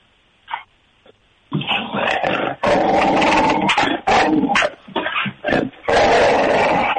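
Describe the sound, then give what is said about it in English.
Several dogs bark and growl over a telephone speakerphone, the sound narrow and tinny, with a few isolated yelps giving way to many loud, overlapping barking bursts in quick succession. “Will they all start barking? Oh, yeah. We can get them going.”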